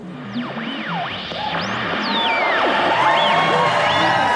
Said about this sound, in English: Okay, I think I have the fake audience noises all queued up here.